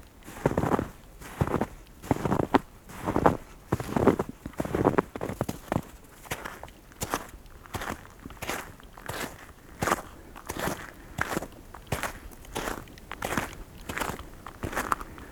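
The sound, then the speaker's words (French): Footsteps crunch on a slightly icy forest track recently cleared by a snowplow. There are many steady, evenly spaced steps, each a crisp crunch, in a walking rhythm with no voices. “Cela va s'entendre tout de suite, quelques pas.”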